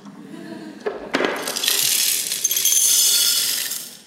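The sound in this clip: Medium-sized stones drop into a glass jar with a few sharp clinks at first, then a dense, continuous clattering and rattling of stone against glass that builds and then trails off.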